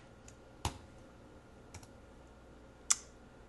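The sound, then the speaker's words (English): A few faint, isolated keystrokes on a computer keyboard while code is being written, with sharp clicks spaced out in near silence. “Whoops, I typed that out a little bit incorrectly there. I needed an equal sign.”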